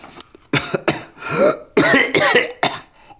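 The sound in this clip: A fit of several sharp, harsh coughs from a person who has just inhaled a dead fly's leg, loud and close together in uneven bursts.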